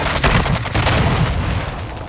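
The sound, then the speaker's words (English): Pistol shots in a video game: a few loud, booming reports with heavy low-end thump, spaced irregularly over a rumbling background. “I scared you with my pistol.”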